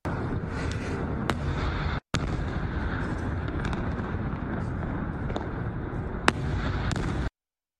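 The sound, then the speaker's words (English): Explosions from a missile strike: a few sharp, loud bangs and cracks break through a continuous roaring wash of noise. “Here was that scene as one of the missiles struck.”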